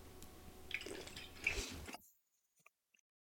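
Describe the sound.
Liquid is slurped through a straw from a bottle in wet, squishy gurgles for about two seconds, then the sound stops, leaving near-silence with a few faint clicks.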